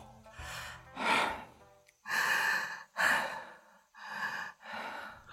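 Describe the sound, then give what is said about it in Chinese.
Heavy panting breaths from a man just coming round after waking, several loud, rasping gasps and sighs following one another in uneven bursts, with no speech. “这时庞太师醒过来了，直喘气”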